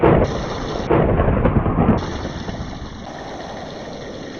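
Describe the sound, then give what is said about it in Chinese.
Thunder rumbles loudly in a storm sound effect, a deep roll with heavier bursts near the start and around the middle that slowly eases off, accompanied by a thin, steady high whine. “雷声震天，跟住倾盆大雨。”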